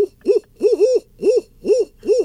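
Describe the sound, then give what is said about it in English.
A barred owl gives its standard call: a rhythmic series of about six loud, deep hoots, each note rising and then falling in pitch, heard alone with no other sounds. “If you look up caterwauling and barred owls, you'll hear and on and on, and then later you'll finally hear the”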